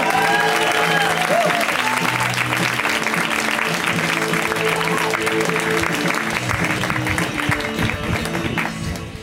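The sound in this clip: Comedy club audience applauds as a comedian is introduced. Thick, continuous clapping with a few cheers starts strong and gradually thins toward the end.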